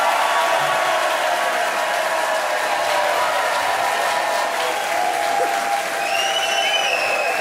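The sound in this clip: Sustained applause from a cheerful live audience at a satire show in the Eifel, steady dense clapping throughout with a few high whistles rising near the end.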